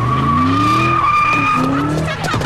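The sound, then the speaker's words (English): Tires skidding loudly as an SUV races off among traffic, a sustained, high squeal with a steady tone over the roaring engine, holding throughout and shifting slightly near the end. “the vehicle, which then races off among the traffic.”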